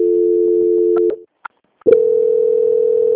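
Steady telephone transfer tones on a bank call being passed to another department: one long, even mid-pitched tone, a short gap with a few faint clicks, then a second long, even tone, loud and with no talk.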